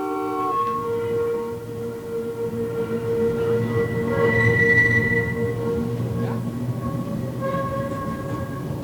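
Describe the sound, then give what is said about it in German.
A yellow tram running on rails: a loud, steady rumble with sustained whining tones that continues throughout and swells slightly in the middle. “Die gute gelbe Straßenbahn. Ich fahre mit der Straßenbahn.”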